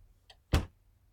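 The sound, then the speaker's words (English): A door being closed: a faint small click followed by a single short, dull thump, heard alone with no talk. “Please close the door behind you.”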